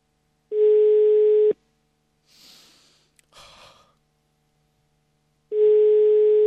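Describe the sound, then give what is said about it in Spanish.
A phone line gives a ringback tone while a call is being placed: two steady, mid-pitched tones of about a second each, separated by several quiet seconds holding a faint breathy noise. “Estamos llamando a Tato Falcón.”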